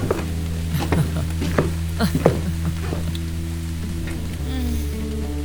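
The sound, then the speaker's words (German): Heavy pouring rain heard from inside a hut: a steady, dense hiss with scattered brief taps and crackles, over low, sustained tonal hum. “Wenige Sekunden später schüttete es wie aus Kübeln.”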